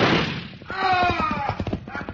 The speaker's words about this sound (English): Who shot that gun? I did.